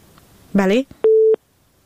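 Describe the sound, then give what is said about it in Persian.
A telephone busy tone sounds after a phone call is cut off: one steady, low, even beep of about a third of a second, with a click at each end, following a short burst of voice-like sound. “بله متاسفانه تماس آخونزاده صاحب قطع شد. تماس بعدی را میگیریم.”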